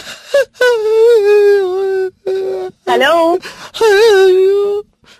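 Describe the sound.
A person wails and sobs during a phone call: drawn-out, high, moaning cries in several long, loud bursts separated by brief gaps.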